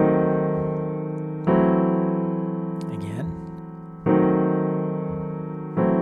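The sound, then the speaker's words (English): Piano locked-hands chords, with the melody octave moving between E flat and E. Several full chords are struck and left ringing with a slow decay, and a voice speaks briefly between them. “So I'm moving my octave from my E flat up to my F flat or the note E. So those two locked hands side by side sound like this.”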